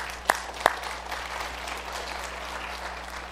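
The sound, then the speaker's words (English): An audience at a church service applauds the music group: two sharp, loud claps ring out first, followed by a softer, steady wash of clapping hands. “Was the music an encouragement to your heart this morning? Was. I hope that you stopped by. You're welcome to give them a hand. You can do that. That's fine.”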